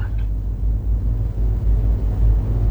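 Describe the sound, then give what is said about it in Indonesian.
Road traffic dominated by motorbikes and other two-wheelers moving in both directions, a steady low rumble of engines with slight swells in loudness and no voices. “terpantau lalu lintas didominasi oleh kendaraan roda 2 maupun dari arah sebaliknya dari Jalan Ayani ke Jalan Pangeran Suryansah”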